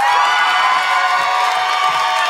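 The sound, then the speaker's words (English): Audience clapping and cheering as a drag comedian walks onstage at a sold-out show of about 90 people: steady, loud, dense applause with whoops and shouts running continuously throughout. “Put your hands together for the incredible Bianca Del Rio.”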